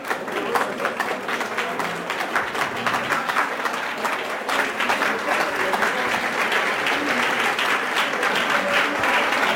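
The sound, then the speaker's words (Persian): A crowd claps hard and continuously, a thick, fast wash of many hands that grows louder about halfway through and stays strong to the end. “محکم تشویق کنید”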